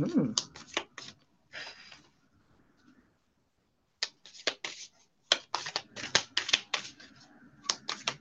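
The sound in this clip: Shuffling of a deck of oracle cards: rapid, papery riffling clicks in dense bursts, with a quieter pause in the middle before the shuffling resumes.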